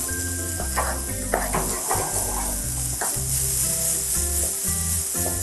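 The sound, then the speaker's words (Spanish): Food sizzles in a pan while it is stirred. The frying hiss is constant, and a few scraping strokes of the utensil rise above it with no talk. “Y vamos a revolver.”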